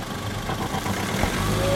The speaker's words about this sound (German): Wir lassen den Wagen an. Nicht, dass die uns entdecken.